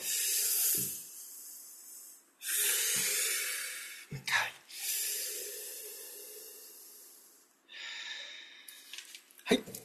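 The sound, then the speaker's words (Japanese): Deep breathing during a stretching break: a few long, hissy inhales and exhales rise and fade in slow succession, each breath soft and airy. “最後の一問の前にちょっと体を動かして、ほぐしていきましょう。よいしょ。はい、深呼吸。”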